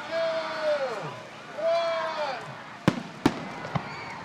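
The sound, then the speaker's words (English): Fireworks bursting at a city display: two whistling launches that fall in pitch, followed by three sharp, loud bangs, the last one smaller. “I'm out watching fireworks with my family.”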